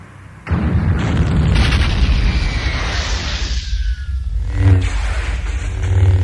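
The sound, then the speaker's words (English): A starship cruiser explodes after torpedoes strike its engine room: a loud, sustained roaring rumble with deep booms swelling within it, carrying on to the end with no voices. “the torpedoes flew straight into the ship's engine room. The cruiser started to explode.”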